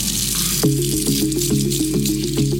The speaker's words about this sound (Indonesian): aku cuci tangan bentar